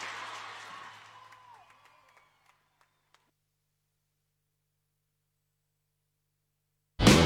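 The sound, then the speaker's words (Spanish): Applause for a performer thins out over the first two seconds into scattered claps. Near-silence follows, then a sudden loud burst of noise at the very end. “¡Aplauso para Coy! ¡Muchas gracias!”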